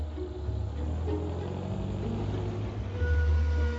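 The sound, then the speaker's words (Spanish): A bus pulls away with a quiet, low engine rumble that stays steady and grows slightly fuller near the end. No voices. “Se detiene y mira a Clemón que sube al autobús. Pepinot lo ve alejarse.”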